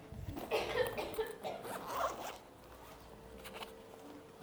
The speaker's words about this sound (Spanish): me han dado ganas de predicar a la antigua, así que voy a sacar mi Biblia de papel.